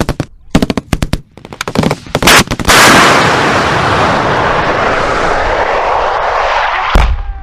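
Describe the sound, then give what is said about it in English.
Bombs drop and explode on Manz Drac: a cluster of sharp, heavy blasts gives way to a long, loud rolling rumble, and one more sharp crack comes near the end. “040 Alpha, confirm that's bombs dropping on Manz Drac.”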